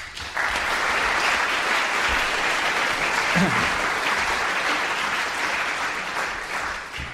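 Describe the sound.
A lecture audience at LSE applauds to welcome a speaker, a dense, steady wash of clapping that holds at an even level for several seconds, then eases slightly toward the end.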